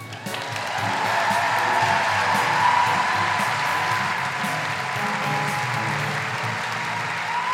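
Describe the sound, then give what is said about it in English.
Dense, sustained applause from a live audience in Wellington welcoming a guest, a steady wash of clapping that holds evenly throughout. “Please put your hands together and make extraordinary Wellington guilty feminist welcoming noises for Malina Momcilovic.”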